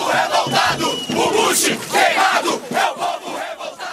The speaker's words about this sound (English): visiting Brazil in March of 2007, where he met with the president of Brazil, Da Silva, but also by protests against the Iraq War. And here's some sound from the streets of São Paulo.